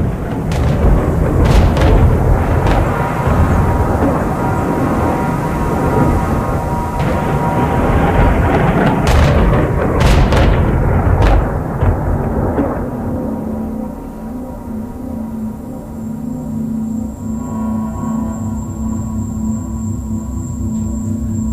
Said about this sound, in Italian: la senti l'artiglieria?